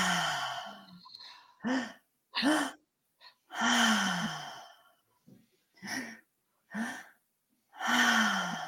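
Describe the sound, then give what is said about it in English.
A person does a guided three-part breathing exercise, drawing breath into the stomach and then the chest before releasing it through the mouth. Many audible breaths and voiced sighing exhales repeat, separated by short pauses. “we'll do a three-part breath, and it's into the stomach, into the chest, and then out through the mouth.”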